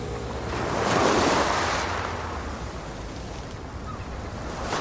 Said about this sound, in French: Je crois que je vais ajouter un peu plus de mouettes. Je peux aussi ralentir les vagues.